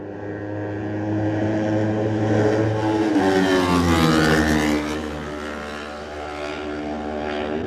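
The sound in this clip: A racing motorcycle at the TT races screams past the grandstand at speed, its loud, high engine note held steady, then dropping sharply in pitch as it passes and fading away, with no talk.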